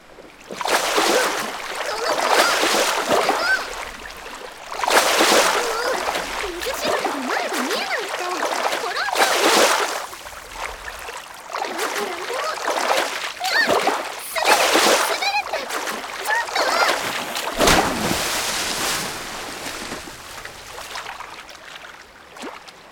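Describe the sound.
Water is splashed at someone again and again, in many loud, sloshing bursts that come in an irregular rhythm with brief quieter gaps between them.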